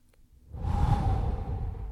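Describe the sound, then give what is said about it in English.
A deep, slow breath taken during a guided relaxation exercise, a soft airy rush that starts after a brief quiet moment and then holds steady to the end. “Take those deep breaths. Take one with me.”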